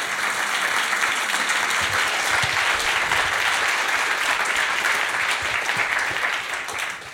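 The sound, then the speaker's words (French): Audience applause fills a live public recording as the French hosts thank their guests, with sustained, even clapping from many hands that tapers off in the last second. “Et merci à nouveau à Trilog, je pense qu'on peut les applaudir encore une fois.”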